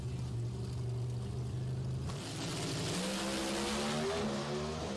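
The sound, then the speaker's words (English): Pro Stock drag cars roar through a final at Sonoma: a dense, loud engine roar that dips briefly, then climbs steadily in pitch as the cars accelerate. “Let's watch the final. A fun final in Sonoma in Pro Stock. And now we wait.”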